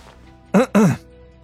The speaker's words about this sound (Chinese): 咳嗽了两声